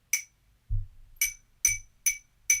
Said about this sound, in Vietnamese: Đây đây đây, có cái mõ này rồi, có cái mõ này rồi.